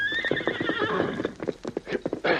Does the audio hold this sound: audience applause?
no